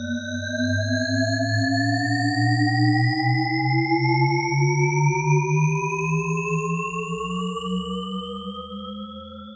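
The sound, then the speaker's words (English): A Shepard tone auditory illusion, with stacked steady tones gliding upward together so the pitch seems to climb endlessly without resolving, loud and continuous with no voices. “This is the sonic illusion known as the shepherd tone, named after cognitive scientist Roger Shepherd.”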